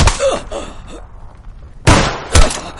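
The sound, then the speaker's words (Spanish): Gunshots strike a body in a war film about a military landing operation. Two loud, sharp bursts arrive about half a second apart near the end, after a quieter stretch that opens with another hard hit. “Dos disparos impactan sobre su cuerpo.”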